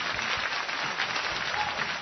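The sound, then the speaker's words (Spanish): An audience applauds to welcome Shigeru Miyamoto: soft, muffled, dense clapping that runs evenly throughout, with no voices on top. “Vaya, ya tenemos entre nosotros a Shigeru Miyamoto, un aplauso por favor.”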